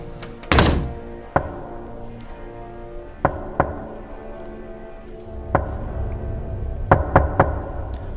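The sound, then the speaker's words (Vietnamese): A bamboo stick knocks on a wooden coffin in sharp, hollow thunks. Several irregular strikes are spread apart, ending with three quick knocks close together. “rồi lấy cái gậy tre gõ vào quan tài cộm cộp.”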